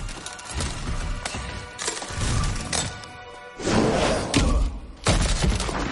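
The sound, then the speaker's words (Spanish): Frozen lake ice cracking under blows from a heavy stone during a film battle: repeated deep thuds mixed with sharp cracks and splintering bursts, loud and dense throughout. “El suelo de hielo se resquebraja.”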